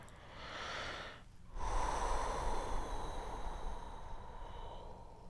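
Deep breathing during a calming exercise: a slow, airy inhale, a brief pause, then a long, louder exhale of broad breathy noise that gradually fades. No talking is heard.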